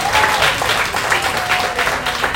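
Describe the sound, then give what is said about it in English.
A church audience claps in praise, a steady, fairly loud patter of many hands that continues throughout the short stretch. “So come on, y'all give the Lord a hand praise.”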